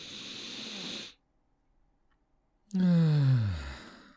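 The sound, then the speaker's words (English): A voice imitates deep, heavy breathing heard in a rocky cavern: a long breathy hiss, a brief silence, then a loud voiced groaning exhale that slides down in pitch. “It's like deep breathing or something.”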